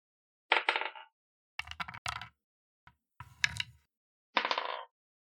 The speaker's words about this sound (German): Dann würfel mal eine Initiative.